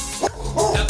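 Dogs barking, a few short, loud yapping barks packed into about a second, with no talk over them.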